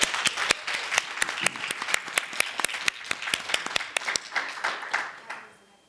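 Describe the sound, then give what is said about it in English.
Hand clapping from a small group fills the stretch as applause, a steady run of sharp claps at an even pace that thins out and fades at the end, with no talk over it. “give him a hand clap for”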